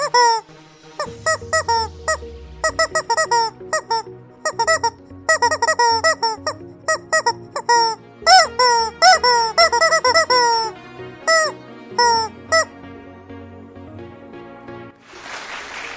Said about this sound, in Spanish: vamos a darle sus dos minutos de, bueno, sus diez segundos de fama a, este pinche pollo.